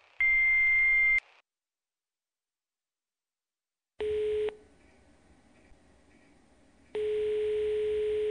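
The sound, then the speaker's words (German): Answering-machine beep tones on a doctor's practice voicemail: one high, steady beep of about a second, then silence, then a short lower tone and finally a sustained lower tone running to the end, all fairly loud and clean with no voices. “Nach dem Signalton können Sie eine Nachricht hinterlassen.”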